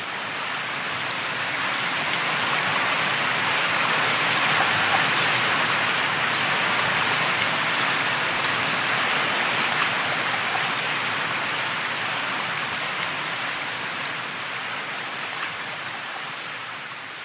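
Steady rain drips from the eaves around a house on a cold morning of persistent rain, a dense, unbroken hiss that holds evenly throughout and eases only slightly near the end.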